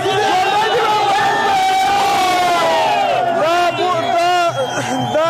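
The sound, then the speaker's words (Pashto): Young people and children chanting slogans at night outside the cricket board in Kabul, celebrating a historic cricket win over Pakistan; many voices shout together in a loud, rising and falling chorus with rhythmic cries that never let up. “په پلازمینه کابل کې د کرکټ بورډ مخ ته تیر شپه یو شمیر ځوانان او ماشومان راټول شوي او د پاکستان پر وړاندې د کرکټ د تاریخي بری په خوشحالۍ کې ژوندې دی افغانستان شعارونه ورکوي.”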